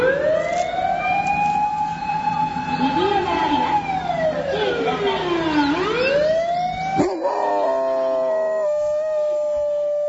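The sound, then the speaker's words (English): A hound howls in imitation of a siren, holding one long, loud wail. The wail glides down in pitch, swoops back up, then breaks into a shakier, wavering howl near the end. “One more time if I can hear that dog imitating a siren.”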